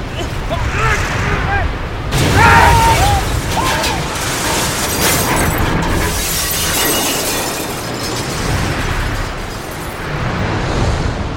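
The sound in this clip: Big chunks of ice and snow crash down in an audio drama, a loud, continuous, rumbling roar full of sharp cracks and shattering bursts that barely lets up.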